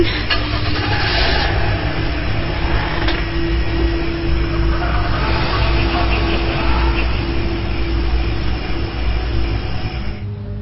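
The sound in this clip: A car driving home, giving a steady, unbroken engine and road rumble with a constant low hum throughout and no voices.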